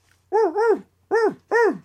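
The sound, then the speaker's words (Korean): Dog barking, a quick double bark followed by two single barks, loud and clear over a faint low hum. “어디서 개가 짖나?”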